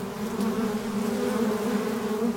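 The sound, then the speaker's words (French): Bees swarming and buzzing in a hive make a loud, steady drone with a low hum that holds even throughout, with no talk. “De loin, on voit un essaim, mais de près, on voit des milliers d'abeilles qui savent toutes ce qu'elles ont à faire.”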